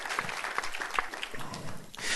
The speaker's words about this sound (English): Come on, give him another round of applause.